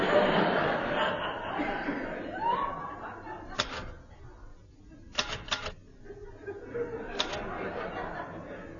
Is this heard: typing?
yes